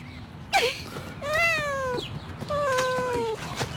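A cat meows for cat treats: two drawn-out, mid-pitched meows with rich harmonics, clear and fairly loud against a quiet background.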